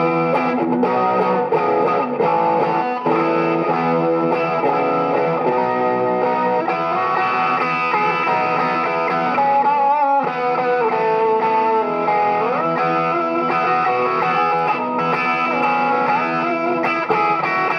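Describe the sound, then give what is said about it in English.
An electric guitar, a light, jangly vintage Gibson model discontinued in the 1960s, is played through a chorus effect. Shimmering sustained chords and notes ring out at a loud, steady level for the whole stretch. “there's something just about this guitar that has, like, as we have chorus on here. Oh, wow, now we're getting circuit.”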